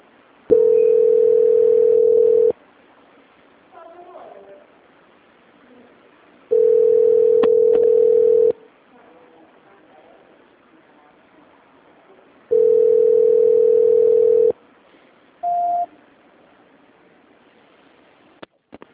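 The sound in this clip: A telephone transfer tone sounds as three long, steady, even tones, each about two seconds, separated by silent gaps, then a short higher beep.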